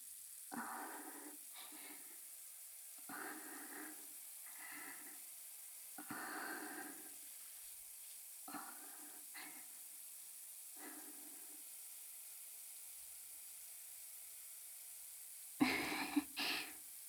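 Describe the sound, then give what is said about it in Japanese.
Water is poured to rinse someone's body, heard as a series of soft, hissing splashes separated by quiet gaps, faint for most of the run with one louder, fuller pour near the end. “お体流していきますね。”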